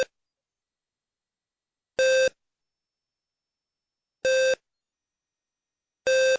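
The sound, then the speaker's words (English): Bat and ball video game beeps from a BBC Micro computer: a clipped beep at the start, then three short, bright electronic bleeps about two seconds apart, with silence between them. “That was the sound of bat and ball from a tape that came free with a computer that probably a lot of you had”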